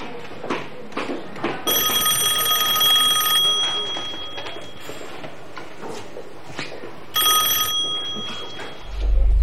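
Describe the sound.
A telephone ringing with a high, rattling electric bell: two rings, the first long and the second short, separated by a quiet pause.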